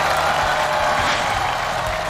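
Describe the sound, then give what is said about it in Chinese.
Audience applause welcomes a guest, a sports commentator, at a live event: a dense, steady roll of clapping mixed with crowd noise that stays level throughout. “让我们掌声欢迎我们中央广播电视总台的体育评论员于佳”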